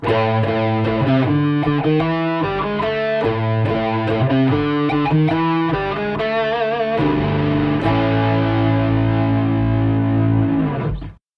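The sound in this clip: A heavily distorted musical jingle, used as a transition at a change of topic, plays loud and dense for about eleven seconds. Rapid chopped notes give way to held, buzzing chords before it cuts off abruptly.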